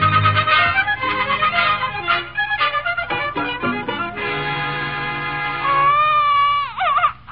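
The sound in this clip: A colicky, hungry baby boy cries in loud, sustained wails, broken into a few short, sobbing bursts and then long drawn-out cries that waver in pitch, with no talking.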